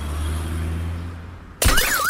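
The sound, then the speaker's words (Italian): Car glass shatters as a dropped iPhone 14 Pro Max, thrown from a window, smashes into it: one sudden, loud, bright crash near the end, after a steady low droning hum, followed by a wavering tone. “Vediamo se l'iPhone 14 Pro Max cade dalla finestra veloce come il 12, vai!”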